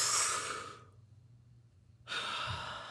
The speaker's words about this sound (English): takes a deep breath and relaxes